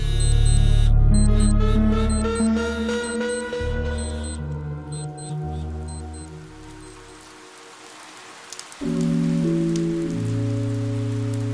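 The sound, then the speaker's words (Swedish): Heavy rain lashes down on an empty football field after dark, a steady broad hiss running under loud sustained electronic music tones that drop away briefly before returning. “Fem kilometer bort piskar regnet ner på Stadshagens idrottsplats.”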